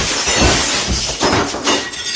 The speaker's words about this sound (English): I broke the window. Okay, quick, glue? No. Tape? Nuh-uh, it's shattered.